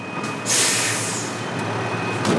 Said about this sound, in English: Here comes the truck.